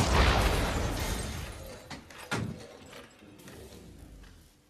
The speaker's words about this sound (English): That's a photon blast.